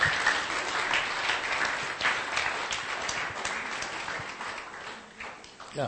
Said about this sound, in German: One more time. Give the Lord a hand. Nochmal ein Applaus für den Herrn, bitte.